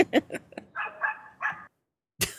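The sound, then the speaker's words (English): A dog gives a few short barks in quick succession among other brief sharp noises, then falls silent before one final abrupt sound. “And the dog agrees. The dog agrees.”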